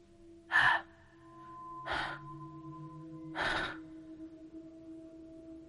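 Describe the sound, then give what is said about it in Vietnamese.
Heavy, panting breaths of a hungry wild beast: three loud, rasping bursts spaced well apart, each short and breathy, over a low, steady hum. “Tiếng thở không giống như tiếng thở của con người, mà như là một dã thú đói khát đang nhìn con mồi.”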